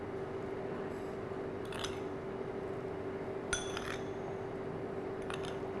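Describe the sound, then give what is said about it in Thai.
Spoon scooping granulated sugar, making a few light metallic clinks and scrapes spaced seconds apart over a steady low hum, with no speech. “เดี๋ยวเราต้องใช้ช้อนตักนะครับน้ำตาลทรายนะครับ”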